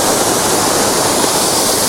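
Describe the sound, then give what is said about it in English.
Water pours down a stream over small falls and trickles during rain, making a loud, steady, hissing rush that stays unchanged throughout without any breaks or voices. “they get a lot heavier than this, but there are some nice little trickles up above, which might be quite pleasing.”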